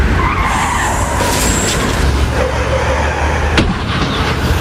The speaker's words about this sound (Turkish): Kamyonet otobüsün önünde fırıl fırıl döndü. Faciayı şoförün dikkati önledi. Frene basan sürücü çarpışmaktan son anda kurtuldu.